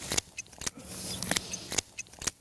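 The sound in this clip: Shears cutting tansy plants by the roadside: several crisp, quiet snips in an uneven rhythm, each a short, bright click.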